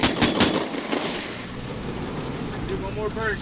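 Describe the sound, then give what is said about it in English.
American and Afghan soldiers fire a barrage into a hillside. Several sharp gunshots crack in quick succession at the start, followed by a lower rumbling wash of noise, with a faint voice coming through near the end. “The soldiers from Butcher Troop fired back, hurling a barrage into the hillside.”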